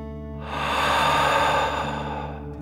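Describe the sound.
Slow deep breathing, taken as a calming breath: one long breathy rush of air swells and then fades over about two seconds, soft and steady, with no talk.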